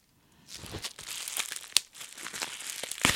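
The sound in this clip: Plastic bubble wrap crinkles and rustles as a cast object is unwrapped, a busy stream of crackling and crumpling with one sharp louder crunch partway through and another near the end.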